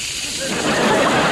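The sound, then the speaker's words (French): Bacon sizzling in a kitchen as a short, dense, steady hiss that swells slightly louder partway through. “C'était un bruit de bacon.”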